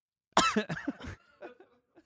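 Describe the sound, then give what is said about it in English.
A person coughs, a quick burst of several loud, raspy coughs followed by a few fainter breathy sounds. “it sucks. I always have to cough.”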